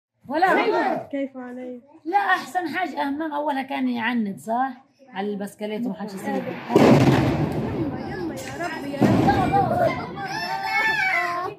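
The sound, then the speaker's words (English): Bombs exploding in Gaza, with young children reacting: children's voices and cries come first, then two loud, rumbling booming blasts break in as the children keep calling out. “Mahmoud Kudoa is a Palestinian journalist living in the Gaza Strip with his family, and he posted this video of his own children's reactions to the bombs.”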